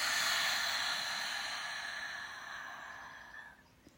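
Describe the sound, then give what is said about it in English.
A deep breath released during a gentle guided breathing exercise, a long, soft, airy hiss that starts strong and fades gradually over several seconds. “Let's take a nice deep breath in, very gently, and release.”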